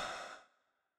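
A single slow, soft exhale during a guided bedtime relaxation: an airy, breathy sigh that starts fairly full and fades away to silence within about half a second.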